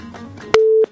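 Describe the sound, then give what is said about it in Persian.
A single steady telephone tone, as on a dropped phone-in call, follows a sharp click and holds briefly at a mid pitch, clearly louder than the faint murmur before it. “بله، فکر میکنم تماس خطیبی عزیزم قطع شده.”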